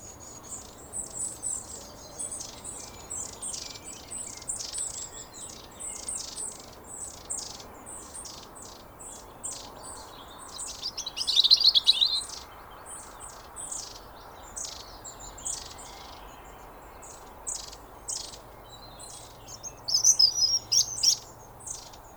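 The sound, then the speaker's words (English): A small flock of birds calling while moving about in woods or parks in winter: many thin, high-pitched chirps repeating throughout, mostly faint, with a few louder bursts near the middle and end. “And often it's the sound of the flock moving about that alerts the bird watcher to their presence.”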